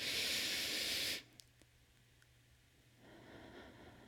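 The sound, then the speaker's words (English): A giant deep breath in makes a strong, airy hiss that holds steady for about a second and then cuts off sharply, followed by quieter breathy noise. “We'll take one more giant deep breath in with me.”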